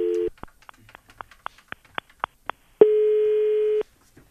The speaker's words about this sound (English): Dialing a random number as we speak.